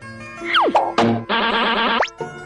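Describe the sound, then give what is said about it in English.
Cartoon effects for Arnold falling off a swing: quick falling whistle glides, a long wobbling boing, then a short rising whistle, loud and alone with no talk. “Arnold climbed on the swing, and then he fell off again.”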